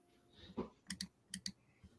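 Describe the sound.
Typing on a computer keyboard: a few sharp, distinct keystroke clicks, some landing in quick pairs, fairly quiet against a faint background.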